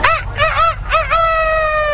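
A rooster crows loudly and alone in a classic cock-a-doodle-doo: three short, arching harmonic syllables come in quick succession, then a long, steady, held final note.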